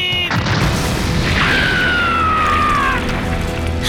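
Hand grenade explosion: a loud, dense roar that fills the whole stretch without a break, with a whistling tone in the middle that slides steadily downward before fading into the rumble.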